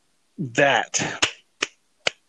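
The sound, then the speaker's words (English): Three sharp hand claps ring out just after a short stretch of talk, each crisp and isolated, spaced unevenly with short silences between them. “that, and I clap my hands just because, yes, we must think and not react.”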